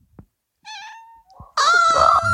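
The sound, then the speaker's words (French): A pet cat meows twice: first a thin, steady, tonal call, then after a short pause a louder, longer and harsher meow. No one talks over it. “je vais juste couper tout ce que tu dis et ne mettre que ton chat.”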